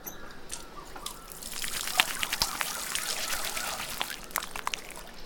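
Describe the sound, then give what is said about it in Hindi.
Water running and splashing as someone washes their hands with soap before breastfeeding a baby. A faint, continuous trickle is broken by small splashes and drips. “बिटिया को स्तनपान कराने से पहले साबुन से हाथ धोकर आई हो”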